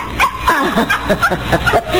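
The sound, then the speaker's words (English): A small dog yips and whimpers in a rapid string of short, high, wavering cries, fairly loud with no talk. “I left my little dog downstairs. I told him, stay. But he never listened.”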